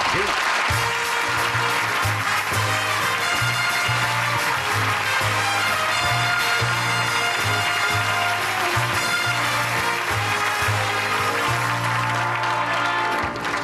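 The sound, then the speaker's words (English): Audience applause welcoming actor Gene Hackman onstage, a loud, steady wash of clapping that holds without a break, with a rhythmic bass line of music playing beneath it. “Would you welcome, please, Gene Hackman.”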